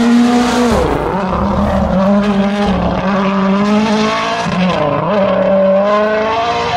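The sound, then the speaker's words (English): A Toyota race car drives hard through a right-left-right sequence of corners, its loud engine droning steadily; the pitch dips twice and climbs again after each dip. “Here we go. I've come to another position through right, left, right. Here we go. It's a Toyota.”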